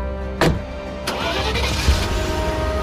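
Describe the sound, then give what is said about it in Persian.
A pickup truck's engine starts as it sets off from a garage: two brief sharp knocks, then a steady, loud, low engine rumble that continues to the end. “مرد جوانی سوار میشه، راه میفته.”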